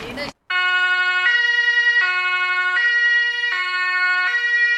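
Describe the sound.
Emergency vehicle siren wailing loud and steady in a two-tone pattern, switching between a higher and a lower pitch about every three-quarters of a second, with no voices over it.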